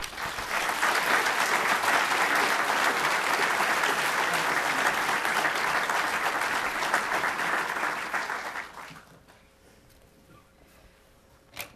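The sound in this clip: An audience applauds two speakers at a historical society evening talk. Dense, loud clapping is sustained for about eight seconds, then fades into near silence with a single faint click at the end.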